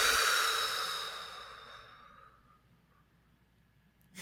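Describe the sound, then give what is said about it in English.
A deep breath blown all the way out in one long exhalation, loud and breathy at first, then steadily fading over about two seconds into quiet. “just take a deep breath. Blow it all the way out.”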